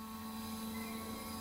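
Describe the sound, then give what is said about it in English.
A drone launching on Maumee Bay gives a faint, steady whirring hum of spinning rotors with a constant buzzing tone, holding evenly for the whole short stretch with no voices. “This is the sound of a drone's first launch on Maumee Bay last year.”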